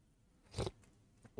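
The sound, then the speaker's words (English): A faint sip of coffee: one short slurping burst, followed by a couple of softer small sounds, heard alone without talking. “a sip of coffee.”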